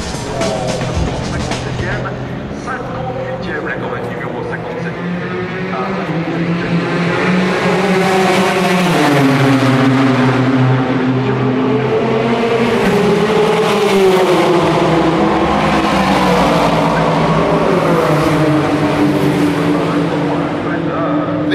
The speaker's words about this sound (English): traditional end to an episode from Le Mans is using the sound of the cars start and finish